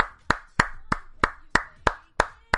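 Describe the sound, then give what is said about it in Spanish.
Hand clapping: eight sharp claps in a steady, even rhythm, roughly three per second, heard alone with no voices. “un aplauso de mi parte y obviamente de todo el equipo de Dolmen”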